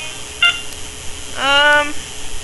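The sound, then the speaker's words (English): Electronic beeps from a phone's keypad while moving through its menus: a short bright beep, then a longer, louder buzzy tone that slides slightly upward, over a steady faint hiss, with no talk. “I hit the select button, hit the up arrow once, select again.”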